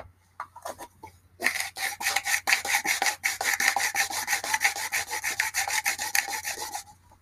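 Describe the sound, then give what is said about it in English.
Dried lavender is ground up for smoking, making a fast, rhythmic rasping scrape. A few separate scrapes come first, then a dense, steady grinding runs to the end. “We're adding the lavender here. Grind it up.”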